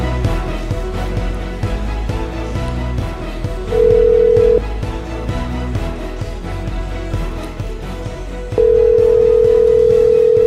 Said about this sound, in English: So we got the best part of the show right now. Let's get the best part of the show is right now, and we are dialing the number right now.